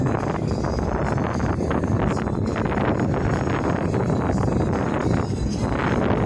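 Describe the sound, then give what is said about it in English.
Wind blows outdoors at night, a loud, steady rushing noise with rough, gusty texture buffeting the microphone continuously, with no voices. “Wind blowing.”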